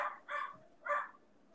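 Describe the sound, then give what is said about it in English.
Two short, raspy dog barks, loud and harsh, about half a second apart, with no voices over them. “And my dogs agree with you. They wanted to make an appearance on here, apparently.”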